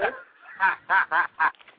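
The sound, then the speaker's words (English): Chickens squawk in a handful of short, raspy, harsh bursts, four of them loud and evenly spaced, trailing off into softer clucks. “Oh, there it is. Yo. Yeah, I think I'm about to be attacked by a million chickens.”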